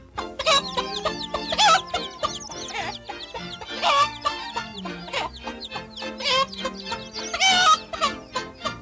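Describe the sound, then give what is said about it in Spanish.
A hen clucks in a 1934 animated cartoon as she sets off with her basket to sow corn, giving many rapid, lively clucks and higher squawking calls in a busy, continuous stream. “La gallina partió sintiéndose feliz, cargada con su cesto para sembrar su maíz.”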